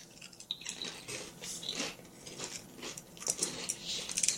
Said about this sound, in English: Oh, you broke my chip. It smells like normal. All right. Ready? So, Southern biscuits and gravy flavor. Go.